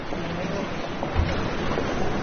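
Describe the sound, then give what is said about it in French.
Rough, agitated sea off Naples roaring steadily: a dense, continuous wash of surf noise with no distinct breaking waves, fairly loud and even throughout. “Voilà la mer. Et quelle mer! Très agitée”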